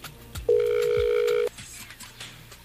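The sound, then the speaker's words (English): Telephone ringback tone on a call to a radio contest winner: a single steady electronic tone about one second long, then quiet line noise. “It's always exciting and nerve-wracking at the same time as we wait for them to pick up. Because we don't know if they will pick up or if it will just ring.”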